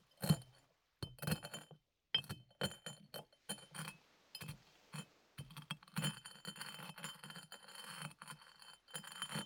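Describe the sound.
Cornflakes are crushed in faint, crisp crackles and crunches that come in irregular bursts separated by brief silences, then turn into a denser, steadier crunching toward the end.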